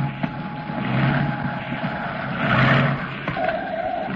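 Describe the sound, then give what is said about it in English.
Aircraft crash landing, a rough, roaring rumble of engine and grinding noise that swells twice, loud and continuous with no voices. “I always wondered what I'd do in a crash landing. But now we're all gonna find out. Hang on, boys. Hang on.”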